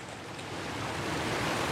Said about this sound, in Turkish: Bu akan suyun sesi. Akan su duyuyorum.